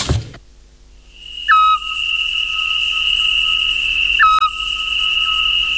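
A Eurasian scops owl, heard under a plane tree, gives two short, clear whistled notes about three seconds apart over a steady, shrill insect drone.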